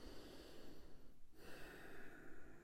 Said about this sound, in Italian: Faccio un respiro lento e profondo e chiudo gli occhi.